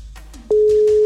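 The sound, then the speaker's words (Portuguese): Telephone ringback tone heard while placing a call: a steady, single-pitched tone starts abruptly partway through and holds loud and unbroken to the end, after faint background sound. “Primeiro toque, Arminda. Segundo toque, Fragoso em Magé.”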